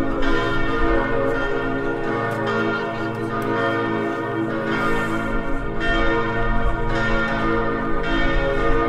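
Bells ringing in an improvised concert, a dense, continuous wash of bright metallic tones with repeated fresh strikes over a steady sustained hum, loud throughout, with no voices.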